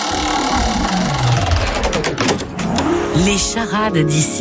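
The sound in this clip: Spinning prize wheel on a regional game show: rapid ticking clicks that start dense and grow more widely spaced as the wheel slows, with voices sounding over it.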